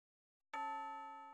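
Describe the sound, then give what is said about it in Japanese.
A school chime starts ringing after a short silence: a single clear, bell-like tone that strikes and rings on with a slow decay, faint and alone. “あ、チャイム鳴っちゃいましたね”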